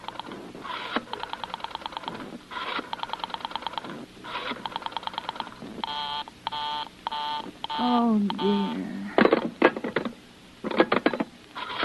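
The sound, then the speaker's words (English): Telephone dialing in an old suspense radio play: a caller works the phone to reach an operator, a series of short bursts of bright, buzzing tones in uneven groups with brief gaps, ending in louder, choppier pulses. “Operator, I've been dialing Murray Hill”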